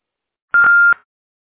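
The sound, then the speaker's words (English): A voicemail answering machine gives a single steady electronic beep, a clear mid-pitched tone lasting under half a second, with silence on either side. “Hello, I'm sorry that I missed your call, but if you leave your name and number at the beep, I'd be sure to get back with you as soon as I can.”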